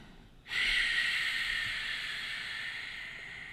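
A long yoga exhale during Ashtanga practice: after a moment of near silence, a breathy, hissing rush of air begins abruptly. It holds steady and fades only slightly as it continues to the end.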